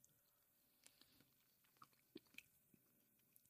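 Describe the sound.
Faint crunchy chewing of cacao, with a few soft bites and squishy crunches scattered through an otherwise quiet stretch and no talk.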